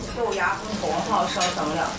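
Steady sizzling from a Korean charcoal brazier hot pot of blood sausage, pork belly, bean sprouts, crown daisy and greens simmering over hot charcoal, a continuous bright hiss with soft stirring scrapes throughout.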